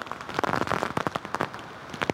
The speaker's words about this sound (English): The rain picking up, the wind as well. We've had some gusts up to tropical storm strength.